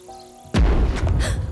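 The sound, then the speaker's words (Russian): Gunfire booming from a passing cruiser at sea: a sudden heavy blast breaks a near-quiet moment, followed by a continuing low rumble with a couple of further duller bursts. “О боже, что это? Выстрелы проплывающего крейсера.”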